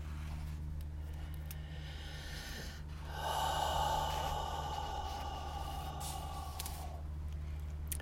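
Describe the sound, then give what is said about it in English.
A single deep breath during a guided affirmation exercise, an audible airy inhale that swells out of a steady low hum and then eases into a quieter, sustained breathy sound. “Take a deep breath.”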